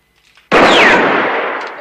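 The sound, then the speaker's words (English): A single gunshot fired at a gun lying on the ground: one loud, sharp crack that bursts out abruptly, then fades in a long, slowly decaying tail, with only faint scuffs before it. “Valance shoots at the gun on the ground, but Rance continues.”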